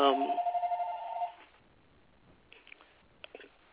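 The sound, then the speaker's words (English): A phone rings with a bright, rapidly pulsing electronic trill that sounds loud for just over a second and then cuts off, leaving near-quiet broken by a few faint small clicks. “my other phone is ringing.”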